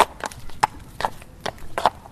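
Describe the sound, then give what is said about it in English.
Hooves of a show-jumping horse clip-clop during a morning training session, a steady series of sharp, evenly spaced strikes with no voices. “He trains every morning with his horse, Niagara.”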